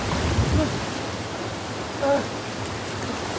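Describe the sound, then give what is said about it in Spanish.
Rough sea swell surges against rocky cliffs in a steady, hissing roar of churning water that stays at a constant level throughout. “Álvaro lucha contra la fuerza de la marejada.”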